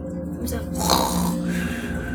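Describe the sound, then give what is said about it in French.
A voice imitates a tired man snoring as he lies on a straw pallet, producing one drawn-out, low, rasping breath that lasts about two seconds. “Et bientôt, tu l'entends rassuré, ronfler.”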